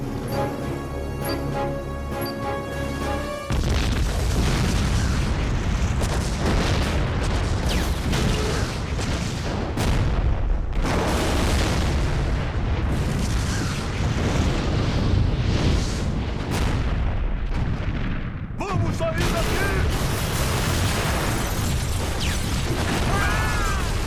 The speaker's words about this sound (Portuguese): Eu programei um explosivo. Onde? Embaixo de nós. No depósito de munição. Gasolina.